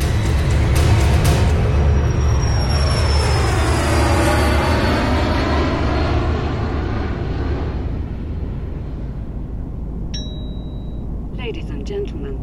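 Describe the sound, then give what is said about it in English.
Loud, steady roar of an airplane cabin as the plane comes in for landing, with a high whine that slowly falls in pitch. A single chime sounds near the end. “Mom woke me up when we were coming in for landing.”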